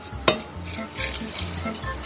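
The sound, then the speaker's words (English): Whisking a milk-based sauce in a pot makes repeated scraping strokes with light metallic clinks against the pot's sides and corners, in a loose, uneven rhythm with one sharper knock near the start. “Whisk really well. Get into the corners of the pot.”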